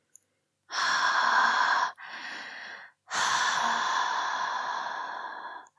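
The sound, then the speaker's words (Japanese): Three long breathy exhalations blown close onto someone's nose, each a loud airy hiss. The second is shorter and softer, and the last is a long breath that slowly fades. “臭い息、鼻先にいっぱい吐きかけてあげる。”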